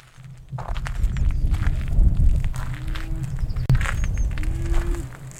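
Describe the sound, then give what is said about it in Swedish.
Footsteps crunch on a gravel road during a country walk among cows, bulls and calves. Many steady steps fall at an even walking pace, fairly loud, over a low rumble. “Just nu passar jag på att ta en promenad. Här på grusvägen, bland kossorna, tjurarna och kalvarna.”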